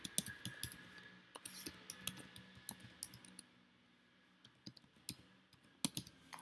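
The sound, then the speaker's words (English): An email address is typed on a computer keyboard: many light, irregular key clicks in quick bursts with short pauses, soft and alone. “And I'll type in my email address here.”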